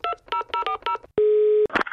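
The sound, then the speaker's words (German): Telephone keypad tones as a call is dialed: a quick run of short beeping touch-tones, then one long steady tone, ending in a brief buzzy burst. “Wir rufen sie einfach mal an.”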